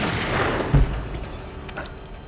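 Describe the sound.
A single gunshot in a movie scene lands as one brief, dull, low thump that stands out from a steady hissing background.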